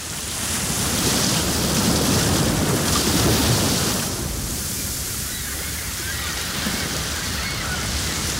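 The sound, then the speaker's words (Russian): Gentle sea waves wash in a steady, soft hiss of surf, a little fuller in the first half before easing into a quieter, even splash. “Вы слушаете приятный, ласковый, расслабляющий плеск волн морей Арафурского, Альборан, Банда, Висаян, Камотес,”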